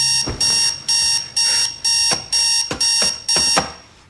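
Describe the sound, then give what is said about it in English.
An alarm clock rings at the bedside in a New York City house, sounding a loud, bright electronic beep in rapid, evenly spaced bursts that repeat steadily throughout. “thumps the alarm several times before slumping back onto her pillow”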